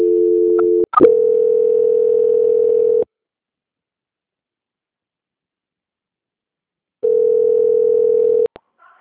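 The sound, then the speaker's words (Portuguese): A steady, mid-pitched telephone tone plays while a call is being transferred. It breaks briefly with clicks, resumes, then stops for a long silence. The tone returns once more and ends with a few sharp clicks. “Só um instante, por gentileza, que eu vou transferir a ligação da senhora, tá bom? Sim. Só um instante. Transferência.”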